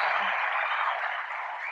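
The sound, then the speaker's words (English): Extended applause from an audience at a cognac-tasting show welcoming a first-time guest, a dense, hissy wash of clapping that holds steady and eases slightly toward the end. “Give a long clap. Oh, damn. I hear the extended clap. Extended bitches. Applause. Extended.”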